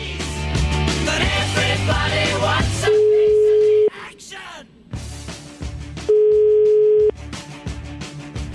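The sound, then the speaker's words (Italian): Ringback tone on an outgoing telephone call, two steady one-second tones separated by a gap of about two seconds, following a loud burst of music, with quieter music continuing between and beneath the tones. “l'abbiamo richiamato il signor Dipré, Sara Tommasi”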